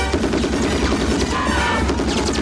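Machine gun fire in an action film scene, with soldiers firing from a truck near a jeep: a dense, loud, continuous barrage of rapid shots.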